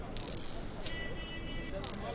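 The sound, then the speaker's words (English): Toy magnets tossed in the air at a street-side toy cart give off two hissing, buzzing rattles, one long and one short, heard under talk. “The buzzing clatter of magnets tossed in the air attracts children to his street-side cart.”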